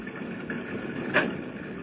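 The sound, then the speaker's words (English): A car engine idles outside with a steady, low, mid-pitched rumble and a brief slight swell near the end, with no voices. “Oh, he must have got that car he was telling us about.”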